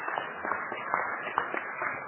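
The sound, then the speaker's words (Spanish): An audience applauds a veteran of Uruguayan radio with steady, dense clapping that sounds thin and muffled, as if heard through a narrow-band line, with occasional sharper claps standing out. “hoy, para todos nosotros es una satisfacción enorme encontrar allá, en la última fila, a una institución de la radio uruguaya, don Raúl Barbero, a quien me gustaría que todos lo aplaudiéramos.”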